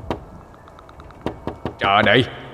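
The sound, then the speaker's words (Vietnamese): Knocking on a door: a few sharp, hard thuds come in irregular bursts, with a quick cluster near the end. A short voiced sound follows. “tiếng gõ cửa ngoài kia càng mạnh bạo, càng dồn dập hơn.”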